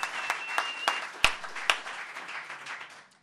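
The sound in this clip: Applause welcoming a comedian onto the stage at a comedy show: a thin spread of separate claps, each sharp and quickly fading, with one especially crisp clap near the middle, tapering off toward the end.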